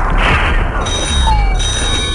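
A telephone rings at a house for a prank call on Halloween night, a bright, steady electronic trill over a loud, noisy background.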